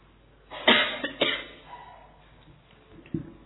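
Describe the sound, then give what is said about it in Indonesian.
Coughing during a spoken talk, meant as a coughing contest: a few short, harsh coughs close together near the start, the strongest pair loudest, then one fainter cough after a pause. “Ayo lomba batuk.”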